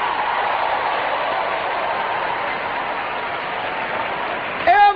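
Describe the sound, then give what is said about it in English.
Congregation clapping hands during a church service: steady, sustained applause from many people holds for most of the moment, then a single voice shouts sharply near the end. “Come on, clap your hands, all you people.”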